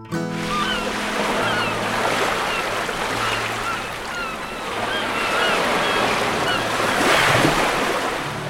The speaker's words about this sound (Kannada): ಬಾಗಿಲು ತೆಗೆದೇ ಬಿಟ್ಟ. ನೀರು ಸೂರ್ಯನ ಮನೆ ಒಳಗಡೆ ಎಲ್ಲ ತುಂಬಿಡ್ತು.